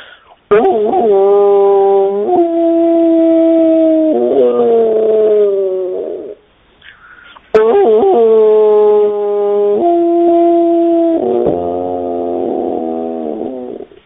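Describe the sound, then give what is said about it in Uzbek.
Wolf howling in two long, sustained howls separated by a brief pause. Each holds a steady, rich tone with a few abrupt pitch shifts, loud and heard alone. “Bo'ri degan bir hayvon bo'ladi. O'sha nima bu bo'rining ovozi mana shunday bo'ladi.”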